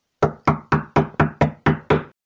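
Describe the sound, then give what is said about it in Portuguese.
Knocking on a door, eight firm, evenly spaced knocks with a hard attack and short decay, loud and alone against silence. “Resolvi ir bater à porta da primavera. Ainda não é o tempo, eu sei. Ninguém respondeu. Insisti.”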